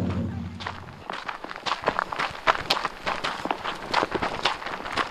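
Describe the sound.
Footsteps of people walking uphill on a climb behind a house on the Colville Indian Reservation in Washington State. Many crunching steps fall in an uneven, steady rhythm, sometimes overlapping, with no talk.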